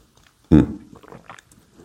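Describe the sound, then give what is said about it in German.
Sip of slightly cooled coffee: one short, loud slurp followed by a few soft swallowing and mouth sounds, then quiet. “No coffee, no work. Der ist ein bisschen kälter, das kann man trinken.”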